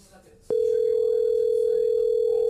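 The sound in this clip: Telephone tone while placing a call: after a short stretch of faint background noise, a loud, steady single-pitched tone starts abruptly and holds unbroken to the end.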